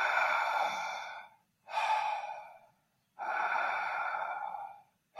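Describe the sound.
Open-mouth breathing comes in three long, breathy airy breaths separated by short silences, with a fourth just beginning at the end. The breaths are fairly soft and steady.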